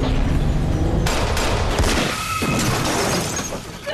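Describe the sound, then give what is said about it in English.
Gunshots from a scene in the TV series 24 ring out as a loud, dense barrage of many rapid shots with crackling, shattering bursts. “As Jack leaves the bedroom to fetch a drink, Renee is shot.”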